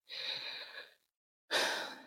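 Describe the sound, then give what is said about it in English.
A slow, deep breath taken during a guided relaxation exercise. Two soft, airy breath sounds are separated by a short silence, each long and breathy, with the second starting stronger and fading. No talk is heard. “So let's take a deep breath.”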